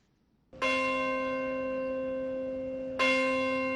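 The Bell of Hope, a church bell at St. Paul's Chapel in New York, tolls at a September 11 memorial: two loud strikes about two and a half seconds apart, each leaving a long, sustained ringing hum.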